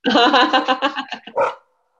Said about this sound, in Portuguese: Grande cachorro, gente.